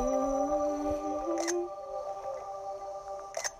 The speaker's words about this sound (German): So, ein paar Fotos fürs Thumbnail.